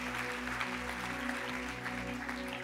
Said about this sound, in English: Can we give them a round of applause?